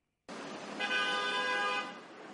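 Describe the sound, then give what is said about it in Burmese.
Car horn honking in a traffic jam on a New York street during the UN General Assembly, one sustained, bright tone lasting about a second over a steady traffic rumble. “ဒါကတော့နယူးယောက်မြို့လေကောင်မှာကားတွေပိတ်နေတာဖြစ်ပြီးတော့”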